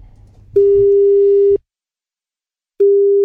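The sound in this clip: A telephone busy tone sounds during a call to a listener: a loud, steady electronic tone lasting about a second, a pause, then the same tone again.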